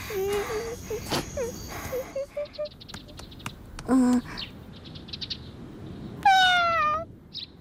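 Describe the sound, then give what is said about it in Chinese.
A hungry cat meows several times, some calls short and clipped, others drawn out, with a longer, louder meow near the end that bends in pitch. “猫猫，你是不是也饿了？你等着，我给你拿。”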